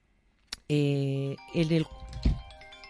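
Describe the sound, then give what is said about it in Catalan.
A telephone rings with bright electronic tones, a longer burst followed by a shorter one, then a brief low thump and soft noises. “Que estem en directe i clar, el telèfon ens sona també.”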